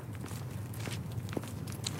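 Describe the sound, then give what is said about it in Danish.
Footsteps of people walking into a forest: a steady run of soft, faint steps over a low, constant background. “Nu går vi ind i skoven for anden gang”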